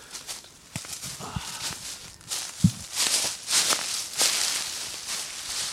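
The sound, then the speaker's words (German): Footsteps crunch and rustle through dry, fallen beech leaves on a forest slope. A few irregular steps give crisp, crackling leaf noise, with one heavier thud partway through. “was mir gefällt, und du als Tonmensch, das hat dir sicher auch gefallen, als wir jetzt durchgelaufen sind, das Laub. Und das Buchenlaub ist ja das”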